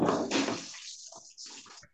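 Running water while washing, with a rushing flow that tapers off, then returns more thinly with light splashes and trickles.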